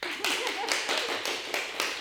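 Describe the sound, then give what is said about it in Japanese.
Brief applause from an audience in short rhythmic bursts, about eight sharp claps spread evenly over two seconds, moderately loud, with faint voice traces underneath. “皆さんから拍手もいただきました。”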